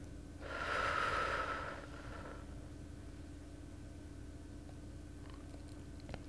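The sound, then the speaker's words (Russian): A single slow breath during a guided breathing exercise: a soft, airy hiss that swells and fades over about two seconds. Quiet, steady background noise follows. “Вдох. И выдох.”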